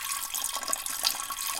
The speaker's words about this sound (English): Now you hear that? That is the sound of a normal non-UTI pee flow.